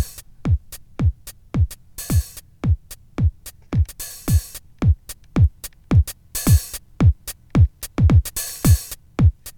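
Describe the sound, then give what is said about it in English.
Basic programmed drums: a punchy low kick thumps in a steady, even rhythm throughout. Short bursts of hissy hi-hat appear at intervals between the kicks, and no other instruments or voices are heard. “It's very basic drums, just a kick, and then I did some work on some hi-hat, and that sounds like this.”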